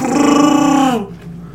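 A Chewbacca-style Wookiee growl sound effect: one loud, raspy, throaty roar about a second long, its pitch sliding down at the end before it cuts off.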